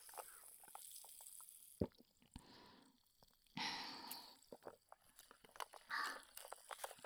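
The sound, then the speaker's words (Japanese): An iced drink with large ice cubes being sipped: faint scattered clicks, knocks and clunks of ice, with a few short slurping, watery bursts between them. “氷が大きいからボコボコします。ちょっと飲みますね。”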